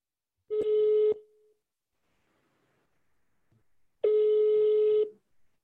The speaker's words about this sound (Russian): Мы сейчас узнаем. Набираем.